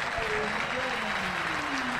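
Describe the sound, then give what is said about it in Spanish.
Crowd ovation at a football match as people rise to their feet, a steady broad roar of applause and cheering, with a commentator's voice talking over it throughout. “Mirá, pónganse de pie. Mirá la ovación.”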